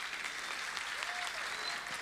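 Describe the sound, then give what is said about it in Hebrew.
Audience applause at a singing competition as the host thanks someone for the arrangements and performances: a faint, steady wash of dense clapping that continues throughout. “מגיע לו מחיאות כפיים.”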